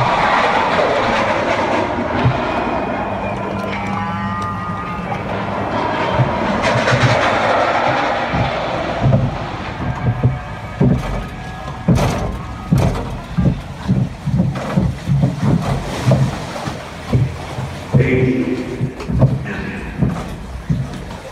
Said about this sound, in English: This is the Log Flume Breaking Bad Falls. It's a Breaking Bad themed log flume ride. Jim, thank you so much for this. Here, for your pleasure right now, is what it feels like to be on the log flume.